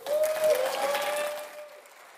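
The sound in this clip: Applause from a church audience welcoming a speaker to the front, a dense even patter that holds steady and then thins out toward the end.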